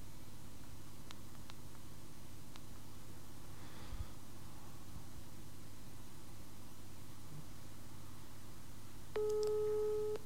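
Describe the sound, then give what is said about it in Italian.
Telephone ringback tone of an outgoing call: after a long stretch of steady hissy line noise, one mid-pitched ring tone starts near the end and continues to the close. “Sta chiamando.”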